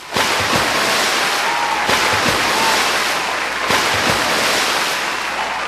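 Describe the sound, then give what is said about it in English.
Three cannonball jumps into a swimming pool make three loud, evenly spaced splashes, each a sudden broad burst of water noise. Steady churning water fills the gaps between them. “We'll celebrate this week's closings with three great big cannonballs into the swimming pool.”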